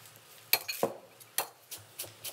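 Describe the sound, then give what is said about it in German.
A knife cuts coriander with several sharp, irregular taps and soft scrapes, fairly quiet, with no voices. “Dann habe ich jetzt hier erstmal den ersten Schwung drin. Schneide ich schon mal ein bisschen Koriander.”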